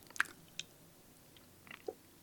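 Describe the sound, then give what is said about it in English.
Faint mouth sounds of someone tasting a spoonful of banana-scented powder: a few short, soft, wet clicks and smacks spaced out over a couple of seconds, with no talking. “Should I taste some of the powder just by itself?”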